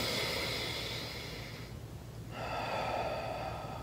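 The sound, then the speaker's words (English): A deep breath drawn in to show diaphragm breathing makes a long, airy, hissing inhale. After a brief quiet gap comes a second breathy stretch, with no speech. “So if I took a deep breath in, so watch my hand again, deep breath in.”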